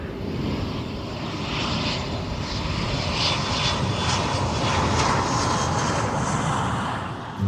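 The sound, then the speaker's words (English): Airplane engine roaring steadily as the aircraft comes in to land, a loud, continuous drone with no breaks and no voices. “At this time, we'd like to ask our flight attendants to please take their seats for landing.”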